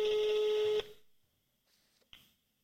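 A telephone being dialled to call someone: a single steady electronic tone holds for under a second and then cuts off. Near-silence follows, broken by one faint click.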